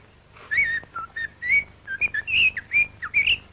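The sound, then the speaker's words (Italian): A male blackbird sings in a dense wood, giving many short, clear, fluting whistled phrases separated by brief gaps. The phrases vary in pitch and stand out over quiet background. “Il canto del merlo maschio nel folto del bosco, il suo richiamo d'amore.”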